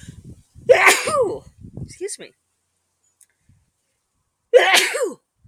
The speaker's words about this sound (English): thank you, all of you out there who gave me good wishes over the sneezes, apologies for that